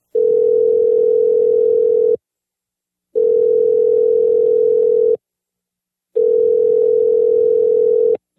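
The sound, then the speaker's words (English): Skype call tone: a steady, loud, mid-pitched tone repeating three times, each lasting about two seconds, separated by one-second silences. “Skype noises. I should really disable the Skype noises.”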